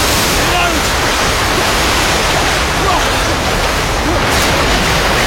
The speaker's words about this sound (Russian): Мощный поток выбрасывает людей из шахты в бункер.